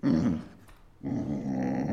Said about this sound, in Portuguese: "Eu não", disse o cão.